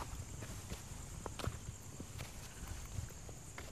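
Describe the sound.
Footsteps climbing a steep slope of about 60 degrees toward the golden sphere inside the Matrimandir during a night visit: soft, irregular steps, faint and close together, over a steady high hiss.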